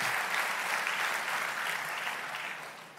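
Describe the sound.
A church audience applauds in a dense, steady wash of clapping that holds level, then thins and fades toward the end, with no clear voices above it.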